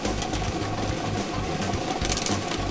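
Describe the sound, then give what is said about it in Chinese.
Mechanical whirring and rattling of a lottery draw machine spinning 30 numbered balls: a steady, loud, dense clatter over a low, pulsing throb, with no voices. “摇奖机已经正式启动了。通过镜头我们可以看到，30个号码球在摇奖机当中正在快速的旋转着。”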